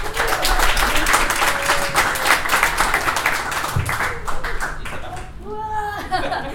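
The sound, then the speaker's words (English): An audience applauds a guest coming onto a stage, with dense, loud clapping that thins and fades in the final seconds as a voice begins speaking. “Please put your hands together for Stephanie Lang!”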